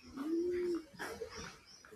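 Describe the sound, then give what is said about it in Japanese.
Birds call outdoors: a soft, pigeon-like coo holds one sustained low note, then a few shorter, fainter calls follow against a quiet background. “鳥の声をお伝えしました。”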